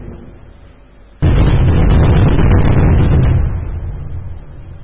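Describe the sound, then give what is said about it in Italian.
Fireworks exploding at the San Sebastiano festival: a sudden loud blast of bursts erupts after a quieter stretch, then continues as a dense, roaring crackle that slowly eases off. “Avete ascoltato i fuochi artificiali di San Sebastiano?”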